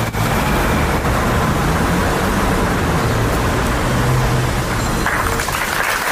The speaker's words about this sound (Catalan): És el so del minut de silenci que s'ha fet després de la mort d'una nena de 9 anys quan es banyava en unes termes.